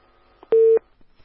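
A single short, steady telephone line beep after a dropped call, a flat mid-pitched tone lasting about a quarter second, isolated against near silence.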